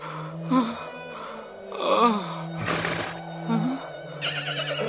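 A horse in the desert gives a few short, wavering whinnies and snorts, loud against a steady low humming tone that runs underneath throughout.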